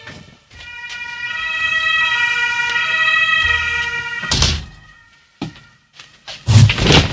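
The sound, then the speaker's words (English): Fire truck sirens rolling out of the fire station next to a radio studio, a loud, steady wailing tone for several seconds, followed by a few heavy thumps and bursts of noise. “It is, in fact, quite unfortunate when you have a radio studio located directly next to the fire station. Because if there is a five-alarm fire, then all of the fire trucks roll out one after the other and blow their sirens.”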